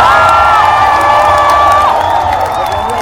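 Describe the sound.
A concert audience cheers loudly before a singer takes the stage, a sustained roar of shouting voices with high whoops and whistles rising above it, steady and unbroken to the end.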